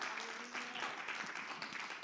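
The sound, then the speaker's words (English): A church audience claps during a worship service, a dense, steady wash of many hands that stays even throughout. It is fairly faint, with a voice briefly audible underneath. “Come on, clap your hands, give God a praise.”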